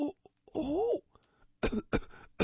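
A person coughs several times, harsh and raspy, as if having trouble breathing. A brief voiced sound comes first, then a few loud, ragged bursts.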